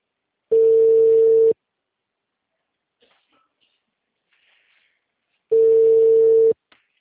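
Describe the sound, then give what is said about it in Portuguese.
Telephone busy signal: two steady, fairly loud one-second tone bursts separated by a long pause, with near silence between them. “Alô, boa tarde. O número está ocupado.”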